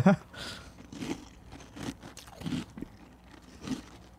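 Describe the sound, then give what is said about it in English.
Close-miked crunching of a berry cereal like Cap'n Crunch eaten with milk. Crisp, crackly bites repeat at a steady chewing rhythm, each a short burst of crunch. “That's a good crunch. Okay. So the cereal is basically like Cap'n Crunch with berries.”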